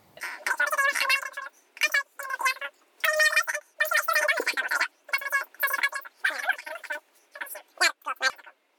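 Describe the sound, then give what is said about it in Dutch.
Dutch-language talk fast-forwarded into high, squeaky, chattering gibberish. The garbled syllables come in many quick bursts separated by short gaps, steady and fairly loud throughout. “Daarom spoelen we dat gedeelte even door.”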